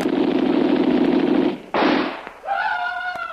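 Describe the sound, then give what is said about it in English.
Gunfire during a firefight around a house: a long, dense roar of noise is cut off by a sudden, sharp-edged blast. A steady tonal hum follows. “I know that bullet wasn't wasted. When that hit, it spun him half around before he fell.”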